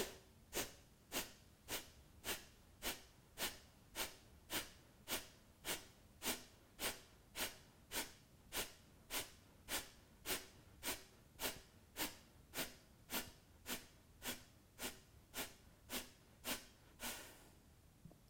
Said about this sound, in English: We'll do 30 deep breaths. And as you exhale, you're exhaling with a force from your nose only, keeping the mouth closed.